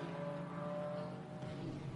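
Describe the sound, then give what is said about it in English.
A race car engine drones from the number 23 Toyota Gazoo Racing car, a loud, continuous, steady whine rich in harmonics that holds without a break. “That number 23 Toyota Gazoo Racing, the black car with the multicoloured stripes on.”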